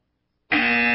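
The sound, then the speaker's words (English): A harsh, loud electronic buzzer, the kind used to reject an entry, cuts in suddenly and holds one steady, raspy tone without a break until the end. “Get the buzzer, you're out. You're done.”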